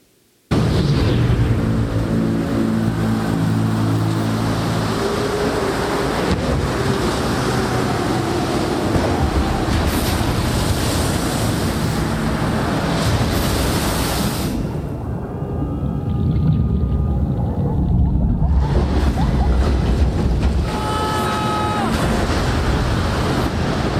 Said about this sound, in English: Richard Parker was the Bengal tiger in the raft with Pi. And so we have that, a little snippet of the movie trailer, if we can play that now.